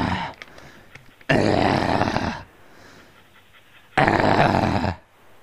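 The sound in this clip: A dog growls in two loud, rough bursts of about a second each, separated by a quieter stretch, with faint noise before the first.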